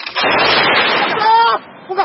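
Gunfire during an armed clash involving heavy weapons in the DRC: a loud, sustained roaring burst, then a shorter second burst near the end.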